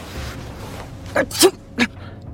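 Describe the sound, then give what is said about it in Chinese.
A sneeze after sniffing white powder in an underground tunnel: a few short, sharp bursts, the middle one loudest, over a faint background hiss. “忍不住打了个喷嚏”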